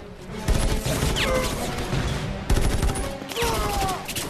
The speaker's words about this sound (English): With my makeshift gun, I wonder if it works. It appears to.